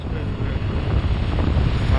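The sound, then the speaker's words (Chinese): Wind picks up over a snowfield as a blizzard sets in, a steady, roaring rush with rough buffeting against the microphone, growing slightly louder toward the end. “现在开始起歪毛风了。 雪原上起风了。”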